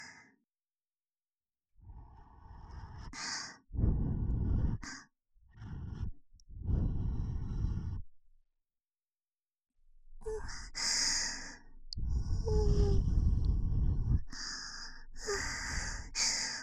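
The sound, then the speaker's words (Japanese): Gentle breath blown close into the listener's ear in an ASMR session: a series of long, soft, airy puffs and sigh-like exhalations separated by quiet pauses. “それじゃあフーフーしますね。くすぐったかったらごめんなさい。じゃあ行きます。”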